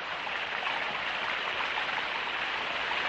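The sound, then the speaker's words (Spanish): Rain falling in a forest: a steady, even hiss of dense rainfall that holds at one constant level throughout, with no distinct drops and no voices. “En el bosque, Suor entrena bajo la lluvia.”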